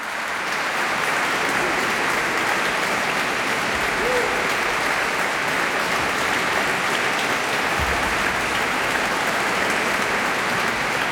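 An audience at the Musicales de Vézelay festival applauds the Aedes choir after its concert, a dense, unbroken wash of many hands clapping that stays loud and even from start to finish.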